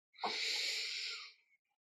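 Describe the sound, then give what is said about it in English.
A single deep breath drawn in during a tapping relaxation exercise, a soft airy hiss lasting about a second that swells quickly and fades away, alone. “Then you take a deep breath.”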